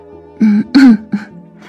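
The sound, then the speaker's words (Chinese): A man clears his throat in a few raspy, voiced bursts and ends with a brief, light cough. The sounds are fairly loud and heard alone, with no talk. “他轻轻咳嗽一声，清了清本来趋近嘶哑的喉咙”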